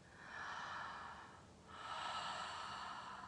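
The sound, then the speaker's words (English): Deep connected breathing, two long airy breaths flowing into each other with only a brief dip between them, steady and fairly loud with no talk over it. “Going into a connected breath.”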